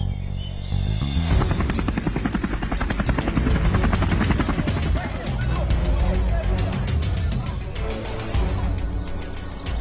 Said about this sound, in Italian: Elicotteri aerei da ricognizione assistono gli uomini dell'FBI e della Guardia Nazionale.